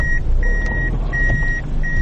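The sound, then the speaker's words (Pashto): Repeated reversing beeps sound as a black Toyota Fielder car manoeuvres back and forth to park on a road. The steady high-pitched beeps come in irregular lengths over a low, continuous engine rumble. “دا د سړک پر سر خپل تور رنګ فیلډر موټر شاو مخته کوي تر څو قانوني ودروي.”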